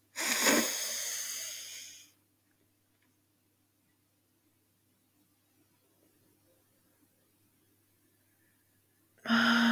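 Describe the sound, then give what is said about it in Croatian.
A slow inhale through the nose during a guided breathing exercise, a soft airy hiss lasting about two seconds, followed by a long quiet pause before another breath sound begins at the very end. “Ponovo udahni na nos.”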